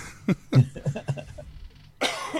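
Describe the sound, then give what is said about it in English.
A single harsh, breathy cough from a person with a lingering cough of about two weeks, bursting out loudly near the end after a stretch of softer voiced sounds. “Oh, this cough will not go away. I've had it for like 2 weeks.”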